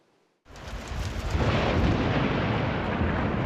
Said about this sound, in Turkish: Şimşekler karanlığı aydınlattı. Başkent Ankara'da sağanak etkiliydi.